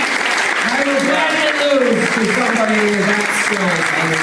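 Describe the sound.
Audience applause at a live show after a contestant's performance, a dense, steady wash of clapping that carries on throughout beneath a speaking voice.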